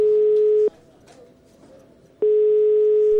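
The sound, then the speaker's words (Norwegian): Ringback tone of an outgoing telephone call: two steady, mid-pitched rings with a pause of faint background hiss between them, and no voices. “Så nå skal vi ringe henne da og se hva hun har å si når hun blir konfrontert.”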